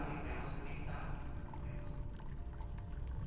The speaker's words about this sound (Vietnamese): Lập tức Lạt Đa múc nước trong thùng rồi uống liền một bát.